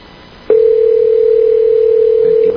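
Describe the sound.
A telephone dial tone sounds while a call is being placed: one steady, loud tone of constant pitch that begins abruptly, holds for about two seconds and then cuts off.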